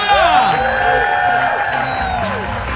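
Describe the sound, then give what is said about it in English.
Audience cheering and whooping for the comedy duo Frangela: loud, sustained crowd noise with high, sliding shouts and whoops rising over it. “Come on, make some more noise for Frangela!”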